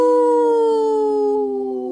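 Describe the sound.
People howl in imitation of wolves, one long, loud, sustained vocal howl on a steady tone that drifts slightly lower in pitch and fades a little toward the end.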